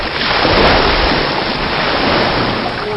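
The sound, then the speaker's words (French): A household robot sprays soapy water at enemies with a steady, loud rushing hiss that continues unbroken throughout. “KROTE, envoie leur ton eau savonneuse. Tout de suite.”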